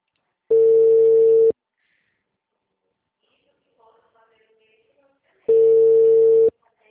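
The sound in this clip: Ringback tone of an outgoing telephone call: two identical steady electronic tones, each about a second long, separated by roughly four seconds of near silence.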